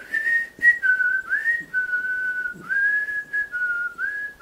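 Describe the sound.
A whistled melody from a radio program's intro theme, with clear, fairly loud sustained notes that glide and step between pitches in a flowing tune, heard alone.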